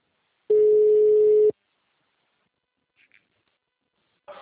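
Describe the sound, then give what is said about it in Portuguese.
Telephone busy tone after a dropped call: one steady, loud, mid-pitched beep lasting about a second, then near silence with a few faint brief sounds and another noise starting at the very end. “a ligação caiu. É, caiu.”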